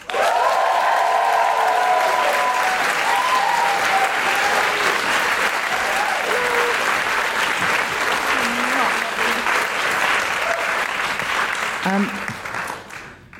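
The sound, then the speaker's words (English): Audience applause and cheering with whoops greet a guest introduced at a live feminist event. The clapping is loud, dense and steady with voices shouting over it, then thins out and fades near the end. “Please put your hands together and make huge guilty feminist woohooing noises for Kristine Ziwica.”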